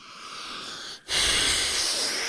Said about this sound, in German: Gott, war das ein langes Schnaufen.